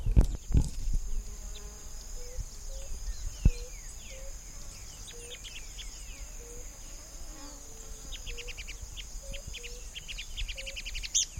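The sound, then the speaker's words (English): Thalmias murina birds calling, two birds, a long evenly spaced series of short low whistled notes with a few higher chirps, over a steady high-pitched insect drone. “Thalmias murina number two, two birds.”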